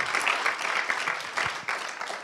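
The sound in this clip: Audience applause at a talk, a dense, steady patter of many hands clapping that fills the whole stretch at a fairly even, loud level.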